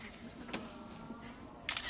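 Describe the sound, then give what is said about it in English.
A camera shutter fires for a selfie: one short, crisp click burst near the end, over a low steady background hum. “Post-talk selfie?”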